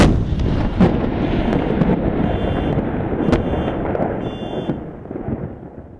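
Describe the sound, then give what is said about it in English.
Artillery fire from Syrian army guns aimed at an insurgent sniper position in a building on the northern edge of Damascus: a continuous heavy rumble and roar with a few sharp, loud cracking booms standing out. “After all else fails when dealing with a Takfiri insurgent sniper stationed in this building, the Syrian army resorted to artillery.”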